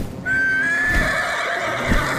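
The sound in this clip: A horse neighs in one long, loud whinny, its high whistling tone rising slightly as it holds on, heard alone without talk.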